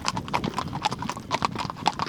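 Hooves of a seven-year-old mare clip-clop in a quick, steady rhythm, with many sharp knocks over a faint background rumble.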